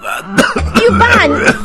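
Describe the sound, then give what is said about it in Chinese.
A short cough and throat-clearing from an older man lying in bed, rough and fairly loud, mixed with voiced sounds over less than two seconds. “你看你看，师傅都被我感动的咳嗽了。”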